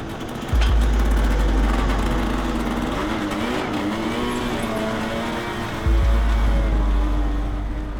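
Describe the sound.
Snowmobile engine on a snowy road, droning steadily with a wavering buzz, while a deeper rumble surges in twice.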